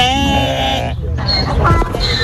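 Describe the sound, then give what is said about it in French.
A sheep, one of a flock of ewes brought onto farmland, gives a loud, wavering bleat, then shorter, rougher calls over steady background noise. “50 brebis et un âne se sont installés hier sur les terres de Mariénia.”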